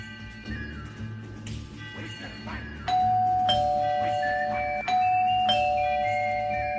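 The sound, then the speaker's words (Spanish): An electronic doorbell chimes, its sustained tones stepping and overlapping as they ring out over a low background hum. “Hace 10 minutos estoy tocando timbre, esperando que el hombre me atienda y nada.”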